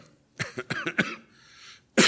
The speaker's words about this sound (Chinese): 对不起，有点咳嗽啊。